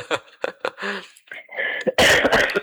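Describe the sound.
Coughing: a few harsh, uneven bursts, ending in a louder, rougher cough.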